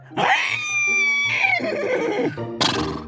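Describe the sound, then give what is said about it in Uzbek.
A horse neighs loudly in a long, wavering whinny that shakes and falls away, then lets out a second brief, high burst after a short pause. “Ot shunday deb bo'rini qoldirib, o'zi chopib ketdi.”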